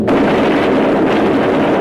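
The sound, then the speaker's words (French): Machine guns aboard a B-17 bomber fire at attacking German fighters in a 1944 wartime recording: a loud, continuous roar of rapid gunfire, the individual shots blurring into one dense, crackling blast. “On entend le bruit des mitrailleuses qui tentent de repousser les attaques des chasseurs allemands.”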